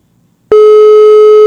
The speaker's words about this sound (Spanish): A ver, denme un segundo. Ahí le estoy marcando a Gilberto.